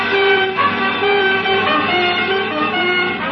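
Car speeding through streets as a radio drama sound effect: a continuous, loud engine roar with a steady tonal drone throughout, no talk.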